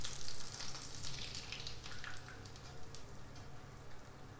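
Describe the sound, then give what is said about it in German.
Batter is poured into the middle of a pan of melted butter and sizzles softly: a faint, continuous frying crackle with small surges that rise and fall, and no talk. “So, Butter geschmolzen. Und jetzt fehlt nur noch eins. Die Teigmasse schütte ich jetzt einfach in die Mitte in die Pfanne.”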